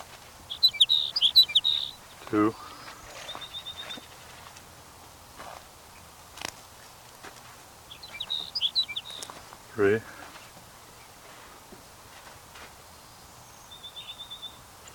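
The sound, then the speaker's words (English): A sage sparrow sings short, high, twittering phrases, two clear bursts and a few fainter ones over a quiet background, with brief human voice sounds between the phrases. “Here's sage sparrow number 5.”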